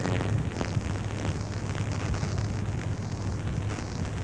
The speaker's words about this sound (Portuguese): 1957. Explode a primeira bomba de hidrogênio.